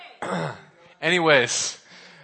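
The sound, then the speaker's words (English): Throat clearing in two rough, voiced bursts, a shorter one followed after a brief pause by a longer, louder one. “Sorry, I had something in my throat.”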